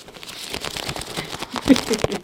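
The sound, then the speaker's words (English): Paper coupons flipped one after another in a toolbox with index card dividers, many quick papery flicks and rustles in a rapid, uneven run that grows louder near the end. “That is the sound of coupon after coupon after coupon. I go through my box every month.”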